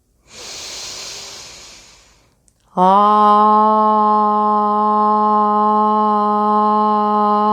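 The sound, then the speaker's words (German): A slow, soft breath drawn in through the nose lasts about two seconds, then, after a short pause, a loud, steady ringing tone sustains to the end. “Ich atme ein durch die Nase.”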